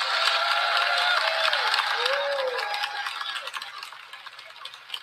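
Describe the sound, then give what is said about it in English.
A church audience clapping and cheering during the offering of tithes and gifts: a dense wash of applause with whooping voices rising above it, gradually thinning and fading toward the end. “the reason that we're clapping and making all that noise is not to be silly”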